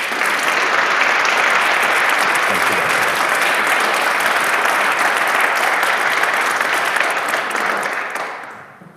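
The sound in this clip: Steady, full applause from an audience welcoming a speaker at an evening event in Minnesota, an even wash of clapping that holds throughout and then dies away in the final second.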